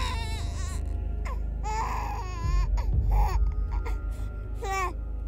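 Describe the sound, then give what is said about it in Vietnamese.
A seven-month-old baby whimpers in pain, with a few short, wavering, high-pitched cries and moans separated by pauses over a low, steady rumble. “khiến một sinh linh 7 tháng tuổi không chịu được, cho đến khi chỉ còn lại là tiếng rên ư ử.”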